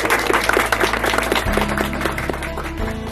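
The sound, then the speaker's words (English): A studio audience applauds a guest expert on child discipline with steady, dense clapping over music. “And for the audience, let's show that appreciation to Dr. Kevin Leman.”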